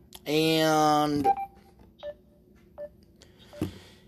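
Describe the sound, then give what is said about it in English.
Electronic tone beeping breaks into a recording: one longer buzzy tone, then a few short, quieter beeps spaced apart, clear over a faint background. “And we've got that tone beeping again. All right, it's not as loud this time.”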